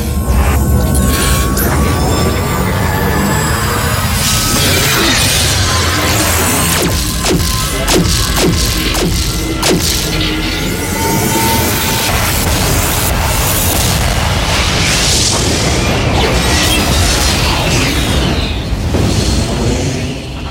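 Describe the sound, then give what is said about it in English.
A planetary weapon fires and destroys an alien fleet in a sci-fi drama, a loud, unbroken roar of booming blasts and explosions over a deep throbbing hum. “Is the weapon prepared? Planetary weapon now prepared for firing. Open fire.”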